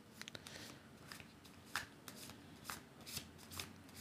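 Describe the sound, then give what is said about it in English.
Tarot cards shuffled by hand for a card-of-the-day draw: soft, papery riffling with repeated flutters and a few sharper snaps, faint and without voices. “I'm doing this card of the day pull.”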